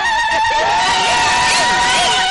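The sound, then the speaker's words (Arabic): Women's zaghrouta ululation fills a henna night celebration: loud, sustained high warbling cries that run unbroken through the whole clip, with crowd noise beneath. “صلوا على النبي وزغروطة يا ستات.”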